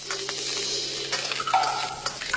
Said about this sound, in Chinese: 葱姜蒜末炒香，再将鳝鱼丝与冬笋丝一同入锅，煸炒至变色。